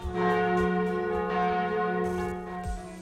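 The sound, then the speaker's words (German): Wedding church bells ringing: repeated loud strikes whose bright metallic overtones sustain and overlap into a continuous humming peal. “da läuten doch mal wieder die Glocken, die Hochzeitsglocken.”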